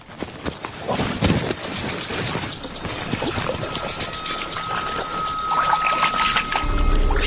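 Footsteps wading through knee-deep mud on a swampy trail after a boat landing: wet squelching and sloshing steps in an uneven rhythm, continuous and fairly loud.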